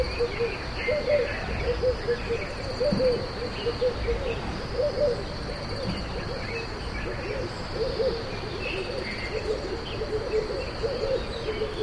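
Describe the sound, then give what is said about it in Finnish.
Crickets chirping at night in Ethiopia, a thin, steady high-pitched trill running throughout, with repeated lower hoot-like calls pulsing underneath at a moderate, faint level. “sitten mennään iltaan, jolloin lähtee sitten ihan toisenlaiset koneet käyntiin, nimittäin kaiken maailman sirkat ja muuta. Tämäkin on tuolta viikon takaiselta Etiopian reissulta.”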